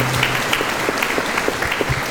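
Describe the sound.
Applause from a church audience for the family sponsoring a religious festival: steady, dense clapping that holds at an even loudness for the whole clip, with faint murmuring voices beneath it.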